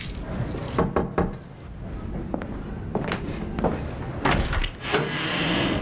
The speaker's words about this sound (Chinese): 我上次给你拿的麦乳精，你怎么都没喝呀？ 啊，忘了，想不起来了。 我给你打开啊，记着喝。